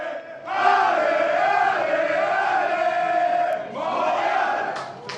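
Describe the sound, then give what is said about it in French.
Dozens of Montreal Impact ultras chant and cheer at Montreal's Pierre-Elliott Trudeau airport to welcome Thierry Henry. The loud, sustained chant is sung in unison, dips briefly, then resumes. “C'est un accueil de rockstar qu'a eu Thierry Henry à l'aéroport Pierre-Elliott Trudeau à Montréal jeudi soir. Des dizaines de supporters, des ultras de l'Impact étaient présents et ont fait entendre leur joie”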